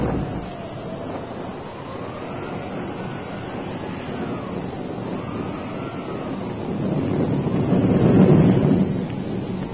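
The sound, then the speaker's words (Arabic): Storm sound effect of roaring wind, pouring rain and thunder: a steady, dense rushing wash that runs throughout, with a deep rumble swelling louder near the end. “وفي الخارج كانت العاصفة تزمجر والأمطار تهطل والبرق يرعد بشكل مدمر.”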